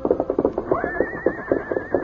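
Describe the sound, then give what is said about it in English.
An agitated paint horse whinnies and rears: a long, high, wavering neigh rises over a steady run of dull hoof thumps as it paws the ground. “Scout continued to whinny, rear, and paw the ground”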